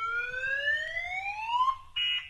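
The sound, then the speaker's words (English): A 1994-era repeating car alarm sounds as a loud electronic whine that sweeps steadily upward for under two seconds, then breaks into a short, steady high tone over a low rumble. “nothing says 1994 like a repeating car alarm.”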